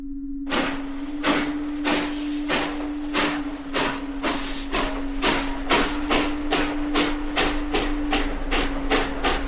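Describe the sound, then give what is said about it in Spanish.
Rhythmic clickety-clack of a travelling train's wheels over rail joints, with many evenly spaced clacks repeating steadily over a continuous low hum and hiss. “Escribo en el tren que nos conduce a Exeter.”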